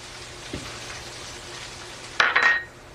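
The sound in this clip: Sliced pieces of food hit a hot pan and fry in a short hissing sizzle, after a quiet stretch broken by one small knock; the sizzle fades quickly.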